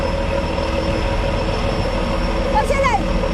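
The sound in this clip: Towboat engine rumbling as it manoeuvres a barge fleet into a ship lock: a steady, dense low drone throughout, with a brief high squeal near the end.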